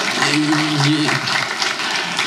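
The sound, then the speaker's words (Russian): Festival audience applause: loud, dense clapping runs steadily throughout, with a voice audible over it. “Я так понимаю, что вот те, кто сейчас аплодировали, да, они, наверное, вспомнят тоже эту песню”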